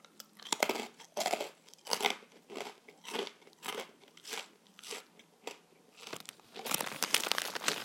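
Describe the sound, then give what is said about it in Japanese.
Crunchy rice cracker (senbei) being chewed in sharp, crackling bites that repeat in a steady rhythm, growing denser toward the end; loud and close with no talk. “俺いつぶりにせんべい食べただろうリアルに”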